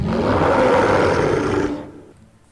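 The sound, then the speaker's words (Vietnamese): A large creature roars angrily. The roar is deep, loud and rough, sustained for nearly two seconds before it quickly drops away to a faint tail. “Thiết Bối Long ba còn đang gầm rú với bọn họ, tự hồ rất phẫn nộ lũ quái hai chân quá giả hoạt và ác độc.”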